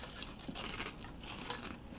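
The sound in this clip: Someone bites into a thick, crinkly ruffled potato chip, giving a few faint, crisp cracks and crunches against a steady background hiss.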